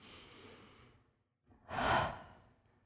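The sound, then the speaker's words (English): A deep breath taken during a sermon: a soft, airy inhale, a brief silent pause, then a louder, fuller exhale that swells and slowly fades. It is heard alone, with no talk. “Everybody, take a breath with me right now.”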